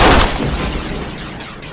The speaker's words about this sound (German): Ich musste schießen. Sie hätten sich sonst umgebracht. Haben Sie keine Angst. Meine Kugel hat nur Ihre Schulter getroffen.